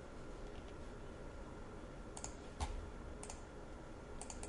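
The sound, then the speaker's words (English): Faint computer mouse clicks, a few short dry ticks scattered over a steady low hiss with no voices. “I'm going to right click and open with, and I'm going to choose a program. I'm going to browse, looking for”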